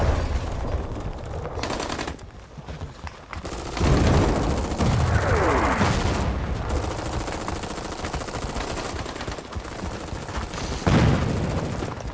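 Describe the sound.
Gunfire from the Iranian war film Tangeh Abu Ghorayb: dense, sustained machine-gun bursts with heavy booming shots, loud almost throughout, swelling around the middle and again near the end.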